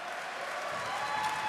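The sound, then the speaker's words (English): Crowd applause at a concert show for the road crew, a moderately quiet, continuous patter of clapping mixed with general crowd noise. “Don't clap too much because they're, you know, they get a little big-headed.”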